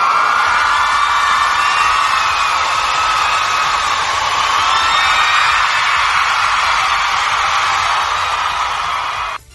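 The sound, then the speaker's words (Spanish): A large crowd cheers and applauds as an ovation, a dense, steady roar of claps, whoops and shouts that holds at a loud level for about nine seconds before cutting off abruptly, with no clear speech. “un fuerte aplauso”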